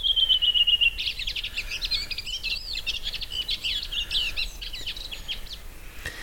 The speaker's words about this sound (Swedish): En av rödvingetrastens alla dialekter